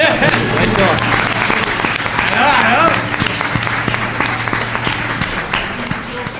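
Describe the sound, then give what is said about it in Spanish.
Audience applause at a university gathering in Alicante, a thick and steady wash of clapping throughout, with some voice sounds mixed in around the middle. “Un aplauso, ¿no?”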